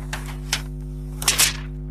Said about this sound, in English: I'm going to peel off all this wonderful plastic here. Here we go.